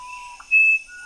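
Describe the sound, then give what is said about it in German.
A musician wren, a tiny Peruvian wren species, sings a few pure, whistled notes at different pitches. The held note in the middle is the loudest, and the clear tones ring alone with no voice. “Eine Zaunkönigart aus Peru. Ein winzig kleiner Vogel. Einige Zaunkönige haben die schönsten Stimmen der Welt.”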